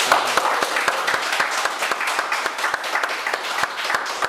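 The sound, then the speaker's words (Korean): Applause for a birthday at a church gathering: many hands clapping in a dense, steady patter of sharp claps that stays fairly loud from start to finish, with no talk over it. “우리 한번 박수로 축하하도록 할까요?”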